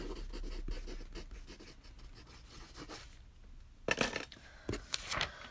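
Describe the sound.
Writing on paper by people marking and crossing out items: faint, continuous scratchy strokes, with a few louder rasping scrapes near the end.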